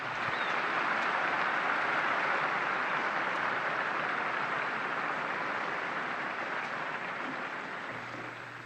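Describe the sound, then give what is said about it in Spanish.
Applause from a large crowd at a papal audience in honour of newly beatified martyrs, a broad, steady wash of clapping that holds evenly and then gradually thins and quiets toward the end. “Un aplauso a los nuevos beatos.”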